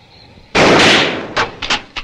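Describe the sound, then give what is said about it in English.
Rifle gunshot in an audio drama: one loud, sudden blast with a short decaying tail, then a few smaller, sharp impacts. “The hooded figure turns to aim at Noah, but Barlow pulls his trigger first”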